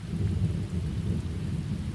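Steady nighttime rain forms a dense, continuous wash with a heavy low rumble underneath, loud and unbroken throughout with no voices.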